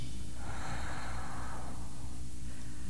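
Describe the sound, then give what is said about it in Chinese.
A deep breath during a guided relaxation exercise: one long, airy rush of breath swells and fades over a steady background hiss. “现在请跟我做，深深的吸一口气，好，停住，吐气。”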